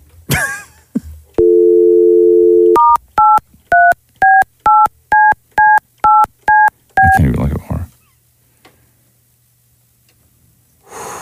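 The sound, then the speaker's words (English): Telephone keypad dialing tones as a phone call is placed to reach someone's voicemail. A steady tone comes first, then a rapid, even series of short, loud, two-note beeps, about ten presses, with brief rustling noise before and after. “Call Matthew back and we'll do this just on his voicemail then.”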